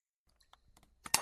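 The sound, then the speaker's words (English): A tape being loaded into a tape player gives a few faint plastic clicks, then a louder clunk and clatter at the end. “So let's load up tape one.”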